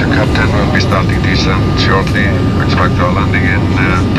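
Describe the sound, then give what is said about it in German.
A steady, loud engine drone fills a passenger airplane as it approaches landing at Keflavik in Iceland. Someone talks throughout over the constant roar. “Also, anschnallen, wir setzen an zur Landung, na klar, in Island.”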